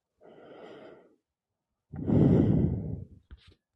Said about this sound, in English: Take a very deep breath in and out.